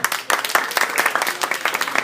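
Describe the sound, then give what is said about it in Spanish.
Audience applause at a talk about comics: brisk, dense clapping from many hands, steady and fairly loud throughout the short burst, with individual claps flickering in an even patter. “Muchas gracias a todos ustedes y yo me gustaría darles un aplauso a ustedes por asistir.”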